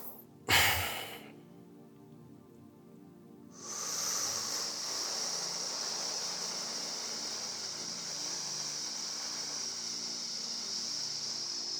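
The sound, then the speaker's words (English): Loud, deliberate breathing: one brief, sharp breath near the start, a quiet pause, then a long, steady, airy breath that carries on to the end. “And now I'm just breathing loud that you can hear it”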